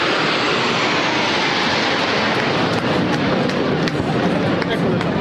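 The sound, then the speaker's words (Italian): Roar of Frecce Tricolori aerobatic jets flying past in Rome, a loud, continuous broad rumble that holds steady throughout, with voices underneath. “Emozioni dunque per tante persone, momento particolare quello al termine del passaggio delle frecce tricolori.”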